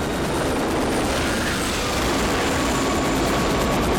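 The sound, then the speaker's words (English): Two helicopters flying low over a cornfield, a loud, continuous rotor and engine roar forming a dense, unbroken drone throughout. “Two helicopters follow.”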